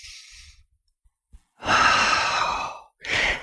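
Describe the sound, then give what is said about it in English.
A person demonstrating a deep diaphragmatic breath: a faint soft intake, then a long, loud, breathy exhale like a sigh, followed by the start of another breath. “to take some deep diaphragmatic breaths”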